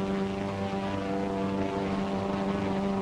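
Propeller fighter planes of the Flying Tigers fly off in formation, their engines forming a steady, droning roar with strong humming tones that holds at an even loudness throughout.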